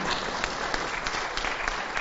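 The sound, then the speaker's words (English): An audience claps in a church gathering, a dense, even patter of many hands that holds steady for about two seconds at moderate level, with no voices over it. “go ahead and clap. It's all right.”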